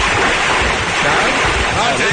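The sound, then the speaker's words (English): Floodwater rushes off Ventura around someone standing waist deep in it, a dense, steady roar of churning water with wind buffeting the microphone. “We are waist deep in water. There is a considerable flow coming off of Ventura”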